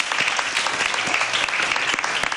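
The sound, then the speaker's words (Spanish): Audience applause thanking participants at a public talk or panel discussion: many hands clapping in a dense, even, loud burst that carries through the whole moment without any voice on top. “Le damos un aplauso a todos los que han participado, por favor.”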